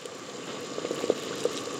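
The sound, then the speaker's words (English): Water bubbling at a rolling boil in a pot on the stove, ready for lasagna noodles. A steady, fairly soft churn of bubbles runs throughout, with a few brief louder pops and no talk. “All right, now I'm going to go ahead and add the lasagna to the water now that we have it at a sort of rolling boil here.”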